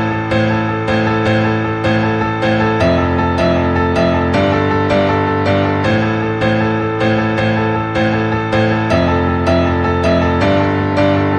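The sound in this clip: A simple piano melody played with both hands: a steady run of evenly spaced, bright repeated notes over a low left-hand part that changes chord every few seconds, loud and unbroken throughout.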